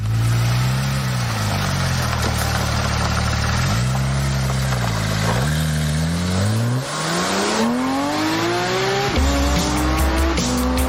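Race cars roar around the Jerez circuit during the Napa Racing Weekend, loud engines rising and falling in pitch through repeated revs and gear changes, with tire squeal over the continuous engine noise.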